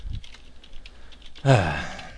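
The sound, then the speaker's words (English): Faint typing on a computer keyboard gives a quick run of light, soft clicks, after which a person's voice breaks in loudly and drowns them out. “Blacklight scorpion. He typed into GIS.”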